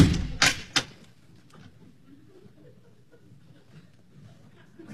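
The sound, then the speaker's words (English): A door shuts and locks: a few sharp knocks and clicks come close together in the first second, then a faint low rumble continues with no clear voices. “Now the door's locked and Nicky's inside.”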